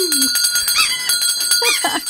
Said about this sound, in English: you better ring the bell